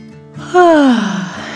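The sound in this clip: A voice imitates a yawn for a little beagle settling into bed in a children's story: a single drawn-out, breathy vocal tone that slides steadily downward in pitch and trails off.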